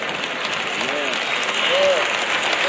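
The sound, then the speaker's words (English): Audience applause during a speech, a dense, steady patter of clapping that fills the whole stretch at moderate loudness, with a few faint voices calling out above it. “Y'all notice how the claps are getting lower and lower and lower.”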